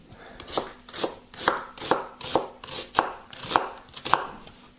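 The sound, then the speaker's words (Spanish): Knife chopping two new sweet onions on a board, a steady run of many crisp, evenly spaced cuts, each a sharp tap, heard alone without talk. “Pero vamos a picarlo aquí así. Tampoco hay que picarlo. Son dos cebollas, ¿eh? Son cebollas nuevas.”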